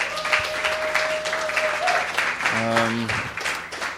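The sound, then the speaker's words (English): Steady, loud applause as a church audience welcomes visitors during a service, lasting throughout with a few held tones and voices mixed in. “So we're just going to welcome you. Let's give them a big hand.”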